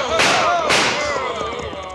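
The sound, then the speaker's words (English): Two sharp gunshots fired over the heads of a surrounded group, about half a second apart, each a loud, broad crack with a decaying tail. Voices can be heard beneath the shots. “Right, unlimber your guns. Keep the bullets over their heads.”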